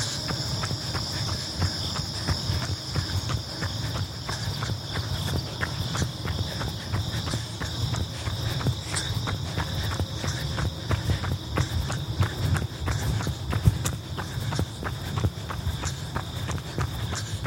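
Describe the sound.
Footsteps of a person running strides, a fast, steady rhythm of soft impacts that continues throughout, with constant high insect chirping alongside.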